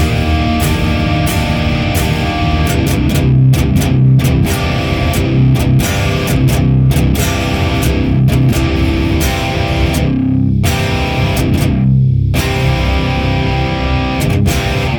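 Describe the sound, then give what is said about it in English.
Overdriven electric guitar plays through a Sound of Justice FX Klon clone and an oversized Mesa cabinet with a Boss IR200 added, producing a full, dense distorted riff of steady strums broken by a couple of short muted gaps toward the end. “And then when we add in our Boss IR200, it sounds like this.”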